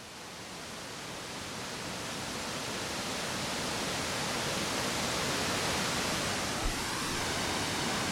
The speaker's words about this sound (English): So that water sound you hear is Englishman River Falls. We're at the Upper Falls right now.